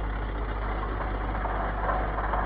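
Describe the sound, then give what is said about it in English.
A bus engine runs as the bus turns into a high street, giving a steady, low idling rumble with a continuous mid-range hum that stays fairly faint and even throughout. “The bus turned into the high street.”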